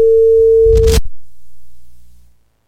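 A steady telephone line tone follows a caller hanging up on a phone-in call. One sustained mid-pitched tone holds for about a second, then cuts off with a brief clatter and leaves faint low hum.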